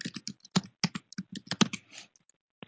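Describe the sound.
Typing on a computer keyboard: a quick, irregular run of many crisp key clicks, with short gaps between bursts and a few final taps after a brief pause.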